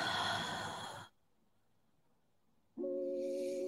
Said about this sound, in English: Tightening your core as it comes up to your heart space and hold. And exhale.